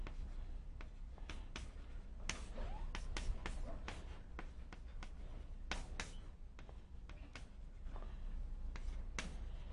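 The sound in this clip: Writing by hand during a lecture: many short, scratchy strokes in irregular bursts, some sharper than others, forming a quiet, steady scratching texture.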